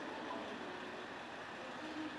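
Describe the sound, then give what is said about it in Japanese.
Faint, steady rumble of a train arriving at a station platform, a continuous low rail noise at even loudness with no voices. “4番線に列車が到着いたします。ご注意ください。”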